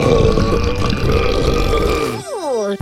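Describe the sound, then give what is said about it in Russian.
A cartoonish burp after drinking soda in the Tapper arcade video game follows a noisy stretch, with a clear tonal sound whose pitch slides downward before it fades out. “Идем пить газировку. В игре Таппер. А где отрыжка, малышка?”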